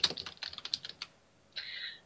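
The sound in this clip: Rapid computer keyboard typing while text is pasted in: a quick, faint run of clicky keystrokes lasting about a second, then a short pause and a brief sustained scratchy sound.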